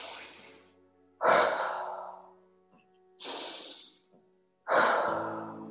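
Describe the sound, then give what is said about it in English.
Deep, slow breaths during a guided breathing exercise, four heavy breathy bursts with pauses between them, each swelling then trailing off, heard alone without talk. “Let's take two more breaths in that halo active pattern.”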